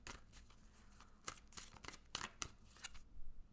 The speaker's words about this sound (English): Now, let's pull a tarot card. Let's see what's going on this week.